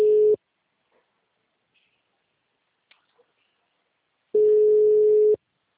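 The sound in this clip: A ringback tone sounds over a phone line while someone is being called. The steady single-pitch beep is cut short at the start and returns after a long quiet gap as one full tone about a second long, with faint ticks in between.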